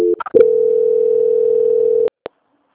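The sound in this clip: A steady telephone tone holds for nearly two seconds while a call is transferred to another department, with a few clicks just before it and two short clicks after it stops.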